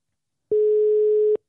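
Ringback tone of an outgoing phone call: a single steady, mid-pitched electronic beep lasting just under a second, starting and stopping abruptly, alone against silence.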